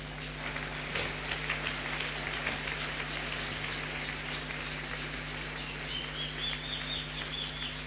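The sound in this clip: Church audience applauding and acclaiming during a worship service: a dense, steady wash of clapping that holds at an even level throughout, with a low hum underneath.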